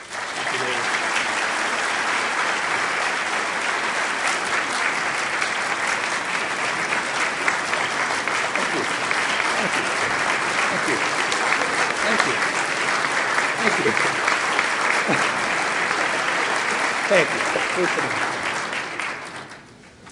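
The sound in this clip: Audience applause welcoming a university chancellor to the stage: sustained, dense clapping from a large crowd, holding steady and loud for about twenty seconds before tapering off at the end.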